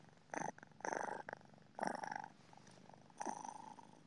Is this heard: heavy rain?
no